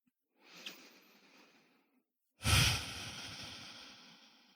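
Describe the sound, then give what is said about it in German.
Deep breathing during a guided heart-centred meditation: one long, soft airy inhale, a short pause, then a fuller, louder exhale that slowly fades out. “Dann atme ein paar Mal tiefer ein und aus in dein Herzzentrum jetzt.”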